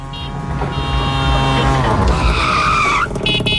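A tuk-tuk drives past with loud, continuous engine and tyre noise. A whining tone holds steady, then shifts in pitch near the end.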